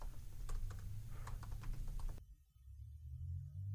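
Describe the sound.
A search typed quickly on a computer keyboard, a burst of light, irregular key clicks over a low hum that stops abruptly partway through, leaving only the hum.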